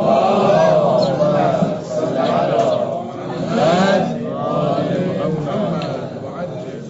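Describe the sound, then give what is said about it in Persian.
A crowd loudly recites salawat, the blessing on the Prophet, in unison. Many voices blend into one dense, sustained chant that swells and eases a few times without stopping. “خب یه صلوات بلندتر بفرست.”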